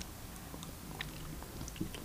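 People bite into and chew a sweet snack, with faint crunching and soft clicks of mastication scattered through the quiet stretch.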